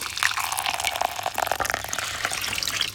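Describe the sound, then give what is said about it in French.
Water runs over hair at a white salon washbasin, a steady, gentle splashing and trickling with small irregular spatters throughout. “Écoute. Tu entends le bruit de l'eau qui coule sur les cheveux?”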